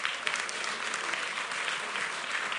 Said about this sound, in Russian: Здорово. Похлопаем.